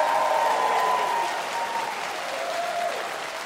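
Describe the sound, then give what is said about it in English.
An audience applauds a band, the Music City Connection. The loud, continuous clapping and cheering eases slightly partway through. “Big hand for Trey Corley and the Music City Connection over there.”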